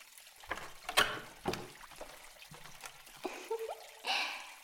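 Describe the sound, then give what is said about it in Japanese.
Water poured to rinse a customer's feet, faint splashes and trickles arriving in a few uneven bursts with quiet gaps between them. “それではお客様、今度はお足の方をお流しいたしますので、恐れ入りますがちょっと立ち上がっていただいてもよろしいですか？”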